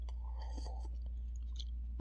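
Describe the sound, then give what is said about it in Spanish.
Soft, wet chewing of a pineapple pie with cheese, faint and steady for about two seconds, ending in one sharper, louder click. “No debería estarme comiendo un pie de piña con queso.”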